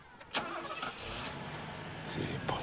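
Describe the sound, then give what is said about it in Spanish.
A car engine starts and settles into a steady, faint, broad rumble with a few brief louder bursts. “arranca el motor.”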